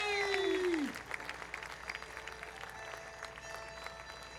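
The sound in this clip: Audience applause greets the road manager at a live show: a voice calls out with a falling pitch at the start, followed by fairly soft, steady clapping from the crowd.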